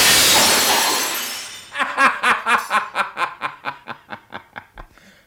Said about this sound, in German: Er traf aber den Kronleuchter, der mit ohrenbetäubendem Krach auf den Boden stürzte.